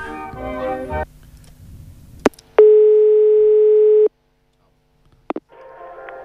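A telephone ringback tone on an outgoing call: music cuts off, a click follows, then one steady, loud mid-pitched beep holds for about a second and a half before silence and a few more clicks.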